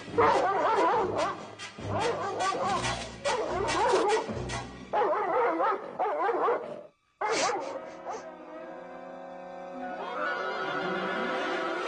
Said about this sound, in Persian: سگ‌های نگهبان سلطنتی هی رئیس